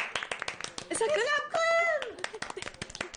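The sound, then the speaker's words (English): Clapping and cheering voices break out at the Gryffindor table right after a student is sorted into Gryffindor. Many quick, sharp claps run throughout, and a bright whooping voice rises above them in the middle. “There's some cheering at the Gryffindor table.”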